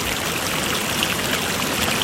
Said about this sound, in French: Puis un jour, elle entend la rivière qui dit